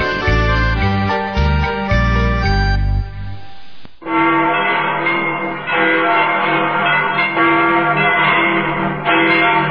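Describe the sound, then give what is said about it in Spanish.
Church bells ringing in Quito, Ecuador: a dense, loud peal of overlapping bell strokes over a deep low hum, a brief break midway, then the ringing resumes just as full. “Con esas campanadas regresamos”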